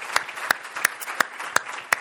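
An audience at the Mount Perrin North Canton campus church applauds to welcome guests, with six evenly spaced, sharp louder claps standing out above a lighter bed of clapping.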